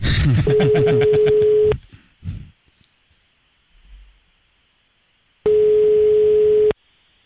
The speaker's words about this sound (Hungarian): Hívjuk a naphallgatóját is közben.